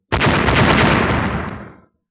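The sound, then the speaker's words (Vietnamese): Loud explosive roar, like a chain of blasts merged into one dense rumbling burst that starts abruptly, holds for over a second, then fades out. “Lại là một chuỗi âm thanh nổ tung cực lớn vang lên”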